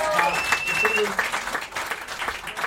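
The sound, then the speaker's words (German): A small round of applause for a young man, with people talking over it. The clapping forms a dense, uneven wash that dips and swells across a few seconds. “Kleiner Applaus für den jungen Mann”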